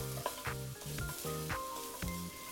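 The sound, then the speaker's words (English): Garlic sautéing in hot vegetable oil in a pan for a Thai beef curry: a steady crackling sizzle with bursts of stirring in a quick, uneven rhythm. “I'm gonna add a little bit of vegetable oil and quickly saute a little bit of garlic to give the beef a little bit of flavor.”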